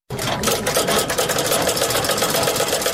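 A sewing machine whirs steadily as sheepskin coats are stitched in a workshop on a street in Ghazni city. The mechanical hum stays loud and constant throughout, with no talk.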